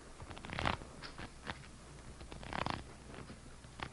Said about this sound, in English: Riffle these cards, mister.